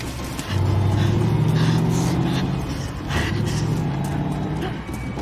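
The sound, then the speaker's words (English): A truck drives slowly along a track beside a cornfield, its engine a low, steady droning hum with a moderate, even level throughout. “The truck gains on Wendy, driving playfully slowly, toying with her”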